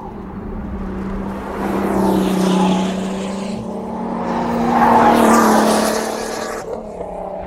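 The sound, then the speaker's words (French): A Formula 1 car taking a long left-hand bend, its loud, droning engine and tyre noise swelling twice and then easing off. “Stridence des pneus au passage d'une grande courbe à gauche.”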